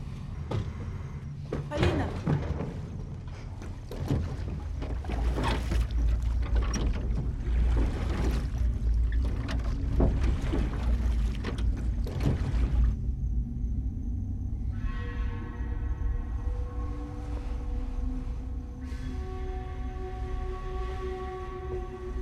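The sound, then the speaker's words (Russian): A rowboat being rowed away across water as a man takes a young woman off in it: a steady run of splashy oar strokes and knocks, followed by music. “Мужчина вывел девушку на лодку и уплыл.”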